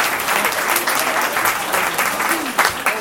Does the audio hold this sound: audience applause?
yes